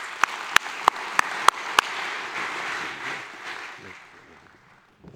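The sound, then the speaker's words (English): An audience applauds to welcome a speaker to the stage. A few sharp, separate claps stand out early over a steady wash of clapping that fades toward the end. “You guys give her a hand.”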